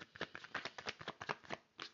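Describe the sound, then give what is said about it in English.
Playing cards are pulled from a deck in many rapid, faint, papery flicks and snaps in an uneven patter, with a short pause before a final flick. “Okay, I'm pull a few more cards.”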